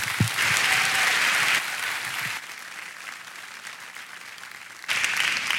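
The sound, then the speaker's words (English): Audience applause welcoming a speaker who comes up to minister: loud, dense clapping that fades to a softer patter, then swells up again near the end. “And so would you give him a hand as he comes and welcome him as he ministers?”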